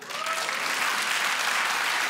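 An audience claps in steady, dense applause that holds at an even level throughout, with no voices over it.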